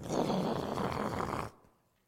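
An earthquake rumble, a deep, loud roaring sound that lasts about a second and a half and then cuts off abruptly, leaving near silence.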